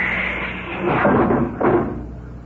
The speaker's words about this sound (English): I'm going to bump out the lock. All set. Open the outer door